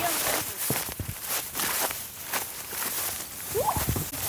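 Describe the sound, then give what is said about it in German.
Footsteps swish through knee-high grass on the way to a large rock outcrop in Queensland, near Toowoomba. Several soft, uneven steps with dry rustling come at a walking pace. “müssen wir etwa 20 Meter lang durch kniehohes Gras laufen.”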